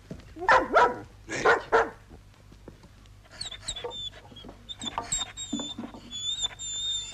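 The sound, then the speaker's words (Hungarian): A dog gives two loud, sharp barks in quick succession. High chirping and clucking of fowl follow and continue fainter to the end. “Mit visz? Mit akar ez a kutya? Mit visz?”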